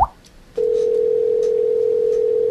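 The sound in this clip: A telephone dial tone, heard before dialing a random number for a prank call: a brief click, then a loud, steady single-pitched hum that holds unbroken to the end.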